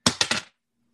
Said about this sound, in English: I swished my dice. Put the other one in dice jail.